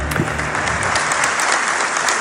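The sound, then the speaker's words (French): A stadium crowd applauds at the Stade Gaston Gérard in Dijon during a minute of applause before a Dijon–Saint-Étienne football match, a dense, steady wash of clapping that stays loud and even throughout. “La minute d'applaudissement du côté du stade Gaston Gérard de Dijon.”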